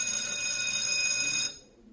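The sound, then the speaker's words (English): A bell rings continuously at a bright, steady, high pitch for about a second and a half, then cuts off abruptly, leaving a quiet tail. No one talks while it sounds. “I guess I'm done. Bell's ringing.”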